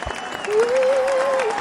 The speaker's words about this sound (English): let's have a round of applause for Carlos